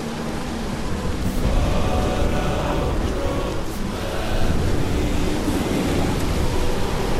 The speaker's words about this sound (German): Da ist etwas im Wind wie Lieder. Was redest du da? Was für Lieder? Das ist nur der Sturm.